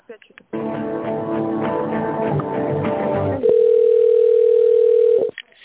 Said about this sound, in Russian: Сейчас, одну секундочку. Угу. Сейчас я вас переключу.